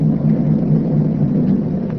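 Low rumble of a boat motor running through choppy waves, a loud continuous drone that stays steady across the two seconds.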